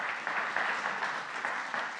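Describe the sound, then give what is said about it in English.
Congregation clapping during a church service: dense, steady applause that holds at an even level for about two seconds. “Let's give the Lord a hand clap tonight.”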